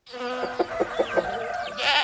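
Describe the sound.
A goat bleats in one long, high, wavering call lasting about two seconds, with a pulsing tremble through it, heard alone without talk.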